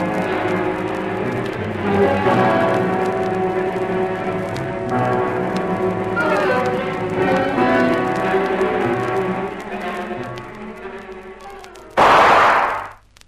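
A single gunshot in a swamp cracks out loudly near the end as one sharp, brief burst, following a long stretch of steady, layered tonal background sound.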